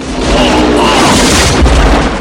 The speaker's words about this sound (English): Chance takes the bars as the enemy bike explodes.